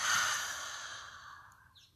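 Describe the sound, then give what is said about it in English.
A deep breath is let out through the open mouth during a yoga breathing exercise: one long, airy sigh-like exhale that starts strong and gradually fades away, heard alone. “Open the mouth, exhale, let it go.”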